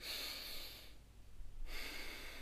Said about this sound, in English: And as you take a deep breath in,